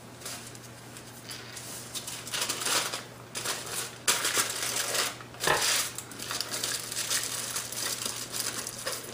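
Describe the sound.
Aluminum foil crinkling as paper cones are wrapped in a sheet of it. The rustles and crackles come in faint, irregular bursts over a steady low hum.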